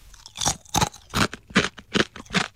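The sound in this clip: Someone crunches a hard, hollow, rich cheese-flavoured rice-flour snack, with six loud, crisp bites or chews in an even rhythm, each a sharp burst of crackling.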